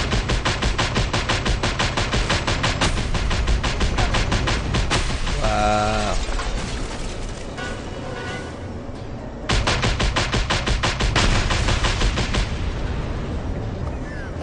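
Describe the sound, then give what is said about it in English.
A flak cannon fires at a helicopter in a video game: loud, dense, rapid bursts of gunfire run almost without pause, ease off briefly midway, then resume at full force. “you gotta go destroy the chopper with the flak cannon.”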